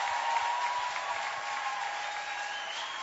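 An audience applauds in church, with steady, dense clapping that holds at an even level for about three seconds.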